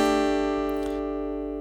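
A suspended chord, with the third replaced by a second or fourth, played on a musical instrument. It rings as one sustained, steady tone cluster that slowly fades, with no talk over it.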